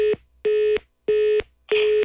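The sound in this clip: Four evenly spaced electronic telephone beeps sound after a call is hung up, each a short, steady mid-pitched tone separated by silence.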